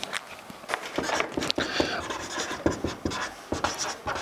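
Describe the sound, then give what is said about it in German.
Writing on a board produces many short, scratchy strokes and taps in an irregular rhythm, fairly faint and continuous throughout. “Ja, ich schreibe das mal hier hin.”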